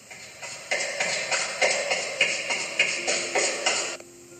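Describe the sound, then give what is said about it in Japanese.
Running footsteps approach down a long, narrow corridor: many quick, evenly spaced footfalls with a soft, tapping scuff, growing slightly louder and then stopping abruptly. “細長い廊下を走る音が近づいてくる。”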